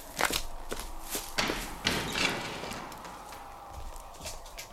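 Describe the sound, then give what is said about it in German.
Footsteps coming along a garden path, a few faint, uneven thuds spaced out over several seconds against a quiet background. “Sir Henry kommt den Gartenweg entlang.”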